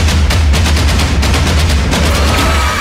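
Machine gun fire from a movie trailer: loud, rapid bursts of many sharp shots in quick succession, riding over a steady deep low rumble throughout, with no voices.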